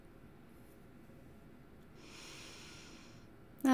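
A slow, deep breath during a guided breathing exercise: a faint, airy hiss that swells midway and then fades, followed by a brief, sharp noise at the very end.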